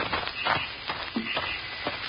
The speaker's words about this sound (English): I walked up the path, up the porch stairs.